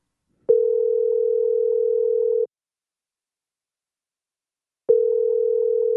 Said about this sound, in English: They're not picking up their phone. Okay, we'll try again.